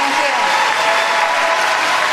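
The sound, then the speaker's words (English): Dense, loud, continuous applause as a crowd rises in a standing ovation for Bernie Sanders after he speaks about running for president. The clapping stays as a steady roar throughout, with a voice talking over it. “Bernie! Hey, yeah, he's getting a half-standing ovation. Yeah, just standing now.”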